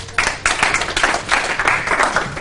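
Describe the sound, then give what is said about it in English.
Audience applause welcoming a speaker at a topology lecture: loud, dense, steady clapping that fills the whole stretch. “So let's welcome Jeff.”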